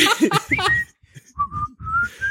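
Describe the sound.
A person whistles a short, well-known melody from a song. Brief talk comes first, then a few clear whistled notes, the last held and gliding gently upward.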